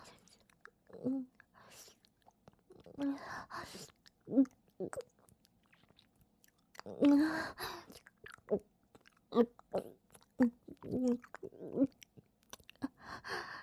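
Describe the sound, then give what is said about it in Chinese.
Wet chewing and biting in a mouth, a series of irregular crunchy bursts separated by short pauses, fairly close and moderately loud. “叫你不听话，被我吃到嘴巴里了吧？”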